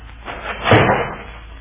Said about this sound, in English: cover me while I take a look in this closet. Spring back the moment you open it, Jim.